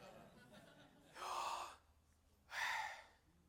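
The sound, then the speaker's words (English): Breathy whispered pronunciation of the name Yahweh, voiced without moving the tongue: two soft, airy exhalations separated by a short pause, faint and without spoken words. “Your tongue mustn't move. So Yahweh sounds something like this.”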